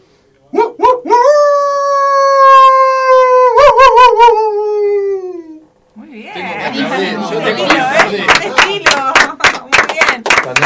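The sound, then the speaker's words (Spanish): A person imitates a howl with a long, sustained, wavering tone that lasts several seconds, followed by lively chatter and a run of clapping. “Bueno, después de estos ejemplares aullidos, está complicado.”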